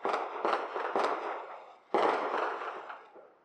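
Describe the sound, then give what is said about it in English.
Canada Day fireworks bursting: three sharp booms in quick succession, then a fourth after a short pause, each trailing off into a rumbling decay, with no voices. “Canada. You can't see it, but at least you can hear it. That is the experience right there, right? It's like when I lived near Larone. I was able to look out my window and watch the fireworks”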